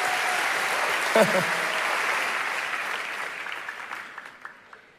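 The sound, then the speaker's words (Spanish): An audience claps in steady, dense applause, with a brief voice cutting through early on, then the clapping gradually thins and fades toward the end. “Los felicito. Apláudanse a ustedes.”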